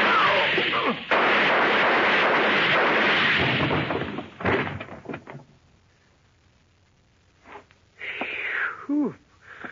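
Gunshots in a radio drama, fired with the guns held up close to muffle them. A long, dense burst of noise is followed by a few shorter, sharp bursts, and quieter gaps fall between them.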